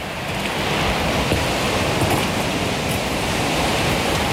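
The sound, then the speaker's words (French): Powerful sea waves roll shingle pebbles along the island shore of Île Sainte-Marguerite, a loud, steady, hissing roar with a gritty rattle and no clear breaks or voices. “le son puissant des vagues, le roulement des galets,”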